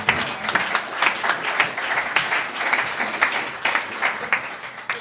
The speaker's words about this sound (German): Applaus, meine Damen und Herren.